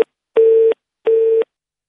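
A busy tone sounds after a radio phone-in caller's line drops: loud, steady beeps, two full tones of equal length separated by short silences, following the clipped end of an earlier one.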